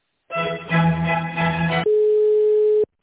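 Telephone line tone as a call is transferred: a short burst of rich, music-like sound, then one steady mid-pitched tone lasting about a second before it cuts off abruptly.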